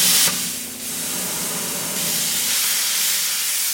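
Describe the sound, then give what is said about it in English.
Cutting torch scoring the head of a statue being dismantled for melting down at a foundry: a loud, steady, rushing hiss that runs unbroken from start to end without any talk. “They use a torch to score the head of the statue in the”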